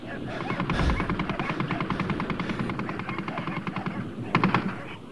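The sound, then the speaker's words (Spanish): Rapid automatic gunfire as a weapon is fired at length at a pack of dogs, a loud rhythmic clatter of closely spaced shots that runs almost continuously, with a heavier burst near the end. “Para calmar mi rabia, castigué a los caninos durante largo rato con mi arma, sembrando de cadáveres peludos la franja entre valla y bosque.”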